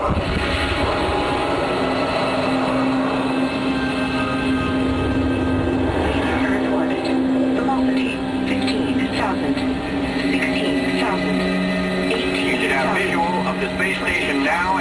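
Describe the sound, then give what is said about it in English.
Steady, loud roar of a second-stage rocket engine firing during a moon mission. A dense, rumbling wash of noise holds at an even level throughout, with no clear start or stop. “Pilot, engage second stage rocket. Engaged. Now.”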